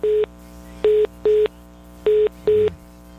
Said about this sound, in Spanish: Lo perdimos. No, pero vamos a restablecer la comunicación. Ya mismo estamos marcando otra vez al diputado.